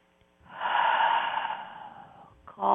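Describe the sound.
A slow, deep human breath drawn steadily for about two seconds with a soft, airy rush, then easing off before another breath begins; no one speaks.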